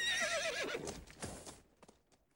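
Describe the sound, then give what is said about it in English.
Horses across a river: a loud whinny wavers and falls in pitch, then a few sharp hoof clops sound as the noise trails off quietly. “Then they heard horses across the river.”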